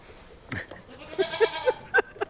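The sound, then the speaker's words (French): Angora goats, a long-haired breed from Turkey raised for their fibre, bleat on a farm in a quick series of short, nasal, quavering calls that follow one another at an uneven pace. “c'est la chèvre angora. Je ne sais pas s'il y en a beaucoup qui connaissent cet animal-là. Donc c'est une chèvre qui est originaire de Turquie et qui fait du poil.”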